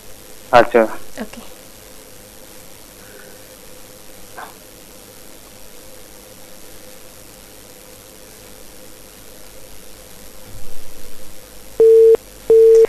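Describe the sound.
A telephone busy tone after a listener's call to a radio programme was cut off: two steady, evenly pitched beeps near the end, preceded by talking and a low background hiss.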